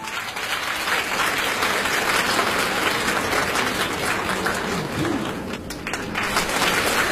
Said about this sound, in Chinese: 谢谢大家的掌声， 谢谢。